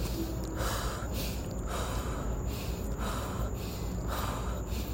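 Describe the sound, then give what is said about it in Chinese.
Breath of fire breathing exercise: a steady series of forceful, airy breaths repeating at roughly one-second intervals, each a short puff of air over a constant background. “火呼吸的方式就是我刚刚说的，然后这样。”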